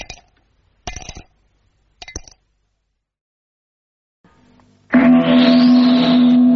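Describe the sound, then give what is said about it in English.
Cape plum stones clinking on a dish: three bright, separate clinks spaced about a second apart, followed after a short pause by a loud, sustained low tone. “Inside every Cape plum, there's a nice clean stone asking to be let out. There's a very sweet sound to Cape plums when you have them for afters.”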